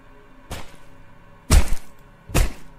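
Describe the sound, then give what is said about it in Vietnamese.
A pig-slaughtering knife stabbing through a door, heard as three wooden thunks: a lighter hit followed by two loud, deep blows, each with a brief rattling tail. “Cánh cửa vang lên ủng ục. Mũi của con dao chọc tiết lợn đâm một nhát xuyên thẳng qua cánh cửa, cắm ngập cái đầu nhọn vào bên trong sâu đến gần một đốt ngón tay.”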